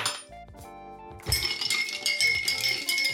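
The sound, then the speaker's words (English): Ice clinks in a glass as a Bloody Mary made with vodka is stirred: soft bumps at first, then a steady run of bright rattling clinks with a faint ringing tone. “So obviously, I'm going to have to grab some ice and get a shot of vodka. Give that a stir.”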